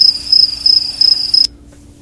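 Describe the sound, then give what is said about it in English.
Crickets chirp as a sound effect in a steady, rapid high-pitched trill. It is loud and continuous with slight pulsing, then cuts off abruptly after about one and a half seconds, leaving near silence. “Crickets, please. I'm looking for crickets.”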